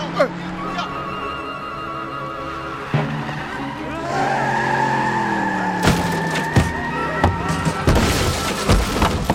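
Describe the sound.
A car speeds off with its engine revving higher and tires squealing. Several sharp knocks and bangs cut through the roar in the second half.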